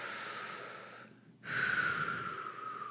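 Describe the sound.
A deep breath taken at the close of a guided relaxation exercise: a soft airy inhale, a brief quiet pause, then a louder, breathier exhale lasting about a second and a half, with no talk over it.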